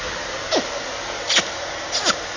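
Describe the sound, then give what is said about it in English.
A vacuum cleaner runs over the floor and under a table with a steady, whooshing drone throughout, broken by three brief tonal swoops that slide downward in pitch. “And I drive the vacuum here over the floor and under the table.”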